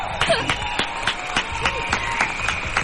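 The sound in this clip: Rhythmic hand clapping, a steady series of evenly spaced sharp claps with a voice heard alongside.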